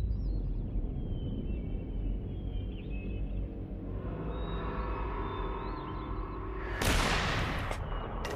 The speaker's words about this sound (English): misses her first shot